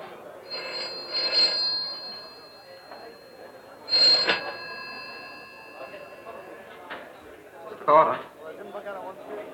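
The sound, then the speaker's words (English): A Bakelite telephone rings in an English film from around 1971, giving a few short bursts of bright bell tone spaced several seconds apart, with people talking over and between the rings. “You hear that telephone? That Bakelite telephone of England”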